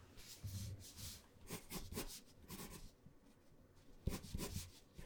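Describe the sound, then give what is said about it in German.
Handwritten notes scratched with a pen on paper while a police report on a stolen luxury car is taken; soft, quiet scratchy strokes come in irregular bursts with brief pauses. “Erzählen Sie bitte, ich schreibe nur mit, okay?”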